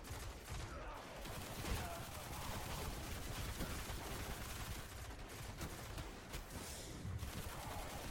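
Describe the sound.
Faint, steady machine-gun fire in a video game shootout, a dense rattling wash of shots that runs unbroken throughout at low volume.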